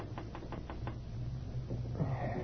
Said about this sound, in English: He was wakened by a soft tapping on the open window.